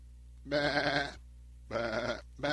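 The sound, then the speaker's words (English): Lambs bleating: two drawn-out, wavering bleats, each lasting most of a second, then the start of a third cut off at the end, loud against a quiet background. “Imagine all the sounds of the lambs.”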